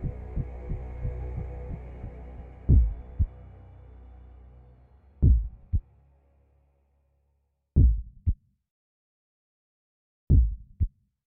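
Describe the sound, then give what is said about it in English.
Muffled heartbeat sound effect: low, soft thumps that start quick and faint under a low hum, then slow to a few heavy double beats separated by silence. “But for many minutes, the heart beat on with a muffled sound.”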